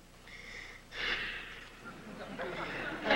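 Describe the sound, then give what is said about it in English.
Heavy breathing from a man asked to breathe for a witness at a police lineup. A few rasping, airy breaths follow one another and grow louder toward the end. “Breathe for the lady.”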